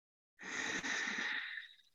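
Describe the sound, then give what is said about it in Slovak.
One deep breath drawn in through the nose during a guided breathing exercise, a single breathy hiss lasting just over a second that begins abruptly after silence and tapers off softly. “Hlboký nádych nosom.”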